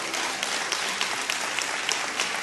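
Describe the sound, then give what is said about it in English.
Audience hand clapping at a church gathering, a dense, steady patter of many hands at moderate loudness. A few slightly sharper claps stand out here and there. “give him a hand clap.”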